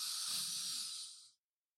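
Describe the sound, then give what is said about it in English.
People breathe in deeply together on cue, a loud airy hiss of inhaled air lasting just over a second that tapers briefly and then cuts off into silence. “So on the count of three, we're going to breathe in. Not the count of three. One, two, three. Breathe in.”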